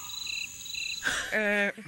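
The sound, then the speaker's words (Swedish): Crickets chirping, added as a sound effect: two high, buzzy trilling bursts with a brief pause between, followed by a louder voice-like sound. “Nu kommer jag att sätta in sådana här syrsor.”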